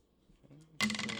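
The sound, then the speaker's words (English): Multiple dice grabbed and rolled for a damage roll in a game: soft handling, then a sudden bright clattering rattle that keeps clicking to the end. “He's gonna grab multiple dice.”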